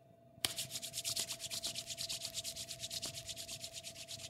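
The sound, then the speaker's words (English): Palms rub together after a finger is dipped in beer, producing many rapid, even swishing strokes in a steady rhythm over a faint constant tone. “So you're rubbing it, finger in the beer, rub it in your hands.”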